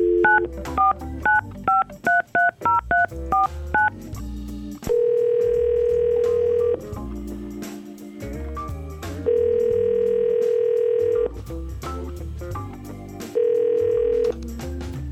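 Telephone dialing and ringing: a quick run of short keypad beeps, followed by several long, steady ringing tones that repeat with brief pauses while the call waits to connect.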